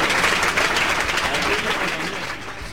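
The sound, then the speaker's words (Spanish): Applause from a studio audience at a game show, a dense, steady patter of many hands clapping that holds at an even level for the whole stretch. “estos aplausos son para vos.”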